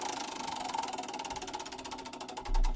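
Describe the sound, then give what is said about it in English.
A prize wheel spins, its pointer making a rapid, even train of ticking clicks. The ticking is fairly faint and heard alone, without voices. “We'll spin the wheel and see who will go first tonight.”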